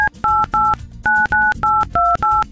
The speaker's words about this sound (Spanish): Te voy a marcar en estos momentos, contéstame para entregarte este par de boletos.